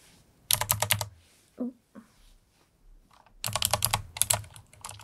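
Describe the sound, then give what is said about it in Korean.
Computer keyboard being cleaned, its keys clattering in two bursts of quick rattling clicks, with a few faint knocks in the quieter gap between them. “오늘은 오랜만에 키보드 청소를 해볼 거예요.”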